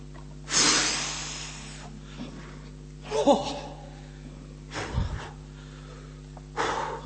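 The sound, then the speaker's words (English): A voice imitates a huge exhaling sigh of relief as a sound effect. One loud, breathy, drawn-out exhale comes first, followed by a few shorter, softer breath bursts with pauses between them. “That's the sound effect that passage needs. That's what's required. Not a dun dun dun, a huge exhaling sigh of relief.”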